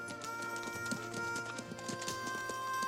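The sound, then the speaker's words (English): Hooves of horses galloping off at dawn across the desert, kicking up dust: many quick clip-clop beats in a steady, driving rhythm that carry through the whole stretch at an even, fairly loud level. “Earl and Valentine gallop off into the dawn, their horses kicking up dust as they go.”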